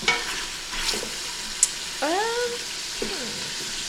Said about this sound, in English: Okay, a lot of the meat is brown, but it's still not crumbling. It's not coming out of these weird casings. The sausage casing.